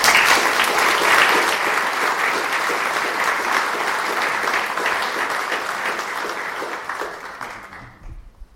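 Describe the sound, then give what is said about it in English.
Sustained audience applause welcoming a speaker to an evening talk on the history of missionaries, a dense and steady patter of many hands that holds level for most of its length before tapering off near the end. “So please put your hands together and welcome Cliff.”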